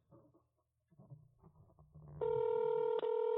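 A phone keypad tone from pressing 1 on an automated line to reach a representative and unlock an account. Faint murmuring comes first, then a loud steady electronic tone starts after about two seconds, with one brief dropout.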